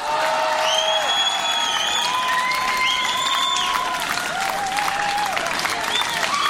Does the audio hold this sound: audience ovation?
yes